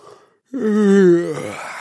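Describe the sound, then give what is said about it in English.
A single human yawn: after a moment of quiet, a loud, drawn-out voiced groan that swells, then trails off into a breathy, fading exhale. “Let's take the everyday sound of a yawn”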